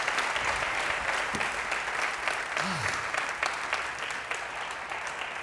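Applause from a church audience welcoming Dr. John Maxwell at Life Church: dense, steady clapping that holds at an even level throughout.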